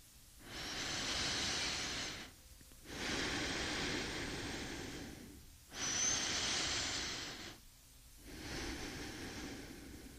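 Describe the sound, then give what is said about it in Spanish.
Deep, slow breathing of a sleeping person: four long, airy breaths in an even rhythm, alone with no talk. “Y la persona respira profundo, bien dormida.”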